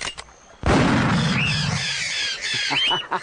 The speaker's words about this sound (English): Bless my soul. I do believe it is the first gun fired on this island since the creation of the world.